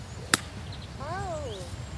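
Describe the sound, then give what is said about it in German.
A golf ball is struck with an iron from the fairway: a single sharp, crisp impact crack stands out clearly above a low, steady outdoor rumble, followed by quieter background sound. “Ball liegt auf dem Fairway und jetzt heißt es über den Bunker ins Dogleg rein.”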